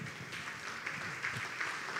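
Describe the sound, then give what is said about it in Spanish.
A church audience applauding: faint, steady clapping from many hands continues evenly throughout without pauses. “Un aplauso al Señor.”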